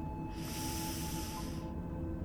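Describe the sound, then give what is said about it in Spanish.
A deep inhale during a guided breathing exercise: a soft, airy hiss that lasts about a second over a faint, steady low background. “Inhala alegría.”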